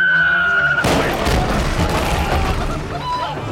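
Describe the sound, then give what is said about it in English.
A cannonball shell whistles in with a steady high tone, then lands in a sudden loud boom that breaks into a crashing, rumbling roar lasting a few seconds. “And there is the whistle of a shell. Uh-huh. And it's getting louder. Cannonball! Take cover!”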